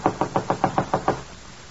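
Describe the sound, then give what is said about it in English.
Knocking on an apartment door: eight firm, evenly spaced raps in a quick steady rhythm, then quiet. “Then on the next night, a knock at Gloria's apartment door.”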